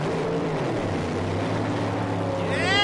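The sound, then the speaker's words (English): Engines revving before takeoff: a steady, dense mechanical drone, then near the end a rising whine as the revs climb and the sound swells louder. “Yeah, they're getting ready to go. Rev it. Rev it. Rev it.”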